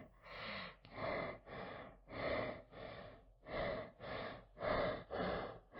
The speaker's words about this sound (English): Oh, can you hear that? He's starting to breathe heavily.